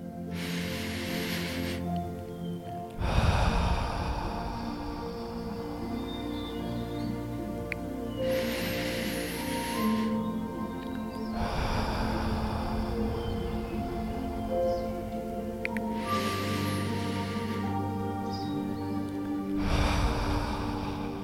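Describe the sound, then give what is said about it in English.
Three slow, deep breaths, each drawn in through the nose with a soft hiss and let out through the mouth in a longer, lower rush, over sustained soft music. “I want you to take three deep breaths in through the nose and out through the mouth.”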